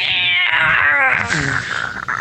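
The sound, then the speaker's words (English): A pet cat meows for attention in one long, loud, drawn-out yowl. It has a rough, strained tone and its pitch bends slightly as it goes. “What was it? Is that just her stretching? No, that's her just meowing.”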